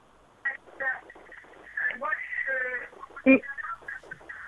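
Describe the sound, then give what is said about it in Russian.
A radio receiver plays loudly behind a caller on a telephone line, its thin, band-limited voices and tones running almost without pause, with a sharp louder blip near the end. “У вас очень громко играет приемник. Вы, пожалуйста, говорите без оговорки на то, что, лично... что из приемника идет.”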